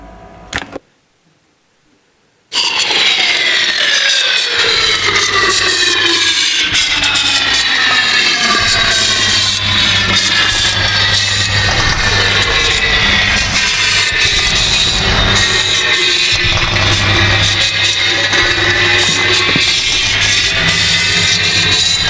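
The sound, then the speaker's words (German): A car engine starting up and driving off, a loud, steady roar lasting about twenty seconds with whining tones that slide gradually lower, after a brief click and a moment of silence. “Los, Rossmann, steig ein, wir fahren zu Brunelda”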